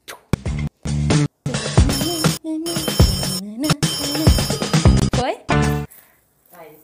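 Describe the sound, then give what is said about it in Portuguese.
Radio show jingle playing: a loud, busy musical burst that starts and stops abruptly many times before fading out at the end. “Roda a vinheta. Preparado? Roda a vinheta.”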